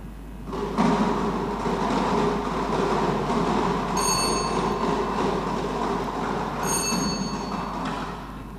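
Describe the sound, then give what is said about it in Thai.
Steady rattling rumble of a lottery number drum spinning at a government lottery draw, the device for the first digit position. It is loud and continuous for several seconds, with two brief high ringing tones over it. “ต่อไปพนักงานออกเลขรางวัลจะได้ทำการหมุนอุปกรณ์เลขเสียงประจำหลักเป็นข้างที่1”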